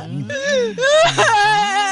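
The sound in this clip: A woman wails and cries in a high, wavering voice with drawn-out sobbing tones that run loud and unbroken through the whole clip.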